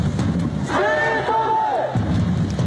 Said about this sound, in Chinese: 我们徐州球迷也正在喊我们徐州加油应援的口号在跟他们有一个互动